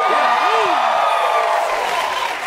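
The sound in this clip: Loud studio audience cheering, with whoops rising and falling above a dense wash of crowd noise and applause that continues throughout.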